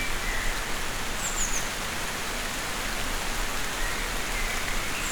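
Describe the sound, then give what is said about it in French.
Spring rain shower with a steady, even hiss of falling rain that stays at a constant moderate level throughout, with no voices. “Juste une ondée. Ondée printanière.”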